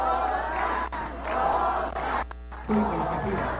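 Crowd cheering and shouting at a live banda performance in the Mexican Senate, a dense, loud roar that holds steady, dips briefly near the middle, then surges again.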